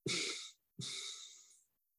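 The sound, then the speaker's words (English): Two-part exhale in a breathing exercise: two breathy, airy exhalations with a short pause between them. The second is longer and fades out gradually. “And then we go to two. Two-part exhale.”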